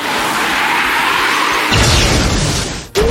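A wing slash attack sound effect in a video game battle: a loud, sustained noisy rush that swells, then ends in a sharp burst and a brief cutoff near the close, with no voices.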